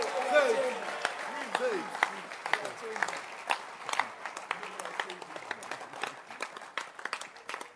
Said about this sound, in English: Clap your hands.